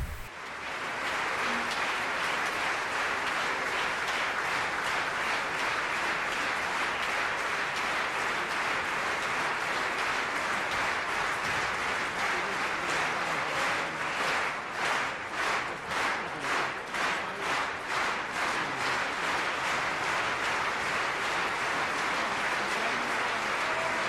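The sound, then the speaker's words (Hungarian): Sustained audience applause honoring a deceased teacher, a dense steady wash of many hands clapping that later becomes rhythmic unison clapping before continuing to the end. “Nyugodjék békében, megérdemli a tapsot.”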